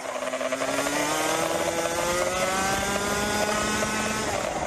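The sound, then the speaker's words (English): A 125cc racing kart engine screams around a track in Florida at speeds near 100 miles per hour, a continuous high-revving buzz that holds a fairly steady pitch throughout. “Footage from the camera on board Fabian Lans's 125cc kart shows her racing on a track in Florida, the United States, at speeds sometimes reaching 100 miles per hour.”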